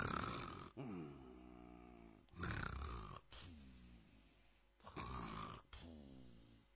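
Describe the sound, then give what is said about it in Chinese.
A voice imitates the heavy snoring of a man worn out from training, asleep while hugging an iron ball: a few rough, breathy rasps alternate with drawn-out, wavering voiced snores in a loud, uneven rhythm. “就睡的时候避免不了打鼾，陆德明这呼噜可就起来了。”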